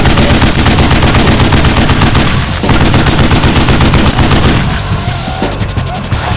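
RDP machine gun fire from a control tower window: a loud, unbroken stream of rapid shots that rattles on for several seconds and eases slightly near the end.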